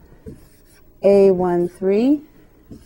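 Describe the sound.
Squeaky pen strokes as matrix entries are written by hand: two sustained, harmonic squeals of about half a second each, separated by a short pause, with near-silence around them.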